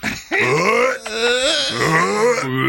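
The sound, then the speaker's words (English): Gagging from the burning heat of very spicy food: one loud, strained, groaning vocal sound that holds for nearly three seconds, its pitch wavering up and down with a rough, throaty edge. “It's like it's so hot that it's hard to breathe. Yeah, it takes your breath away, gagging, right? You start gagging.”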